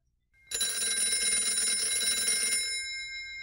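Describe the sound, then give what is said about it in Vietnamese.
An alarm clock rings in the morning with a bright, continuous metallic trill lasting about two seconds, loud and steady, then stops and leaves a short fading tail. “Sáng ngày hôm sau, khi tiếng báo thức kêu lên”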